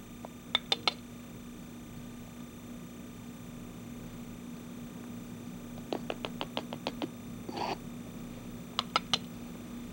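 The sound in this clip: Sharp, light clicking taps of a scoop against a container as dental alginate powder is measured into a mixing bowl. They come in three short bursts over a steady low hum.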